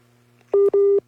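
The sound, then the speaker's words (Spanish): Telephone tones sound as a call drops: two loud, steady mid-pitched beeps in quick succession with a brief gap between them. The second beep runs longer than the first, over a faint low hum. “Ahí se cortó un poquito la llamada. Son los tonitos que siempre nos alertan de eso.”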